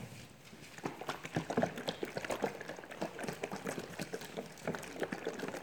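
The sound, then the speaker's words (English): Liquid sloshes and rattles as a volunteer shakes a container hard and stirs it during a church sermon, giving a busy, continuous stream of many irregular splashy knocks and swishes. “Can I get you to come up and shake that as hard as you can? Stir it up as much as you can for me, okay?”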